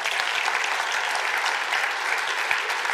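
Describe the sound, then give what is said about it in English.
Applause welcomes new members into a church: dense, steady clapping that fills the whole stretch at an even level, with no voices standing out. “Well, on behalf of Grace Church, it's my joy and privilege then to welcome you into membership here at Grace Church. Let's give these guys a hand.”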